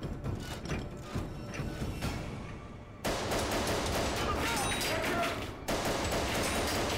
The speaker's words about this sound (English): That's cool because he's actually shooting blanks there.